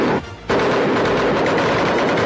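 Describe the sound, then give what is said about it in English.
A Sten submachine gun fires automatically at about 600 rounds a minute: a loud, rapid rattle that breaks off for a moment, then resumes as one sustained burst. “The Sten gun has already proved its worth on commando raids. Brilliant! Yeah, amazing. The recoil wasn't half what I thought it was going to be.”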